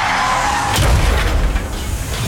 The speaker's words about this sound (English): Then comes the crash.